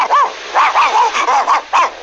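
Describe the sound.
A dog barks as it gallops behind a garbage truck, giving a quick run of short, high, bouncing yips in an uneven rhythm, loud and with no talk.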